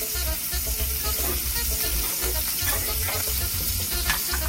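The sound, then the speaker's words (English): Shrimp frying in a skillet, a steady, fairly loud sizzle with fine crackles and small pops running without a break, and no talking. “So we're gonna cook our shrimp about halfway, and then we're gonna build our sauce from that.”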